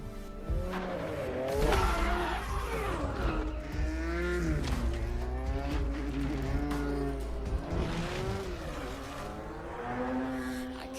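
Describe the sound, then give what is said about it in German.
Car engines revving in a racing video game trailer: several loud, overlapping engine notes that keep rising and falling in pitch over a deep, steady rumble, continuous throughout. “Autos. Die fahren.”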